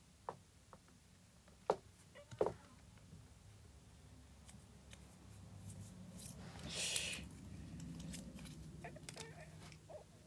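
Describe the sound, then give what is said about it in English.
Plastic being ripped and tugged by hand, faint overall, with a few sharp snaps early on and a longer crinkly tearing burst later over quiet background rustle. “Stop ripping. Stop trying to rip up plastic. You're just gonna give yourself plastic cut.”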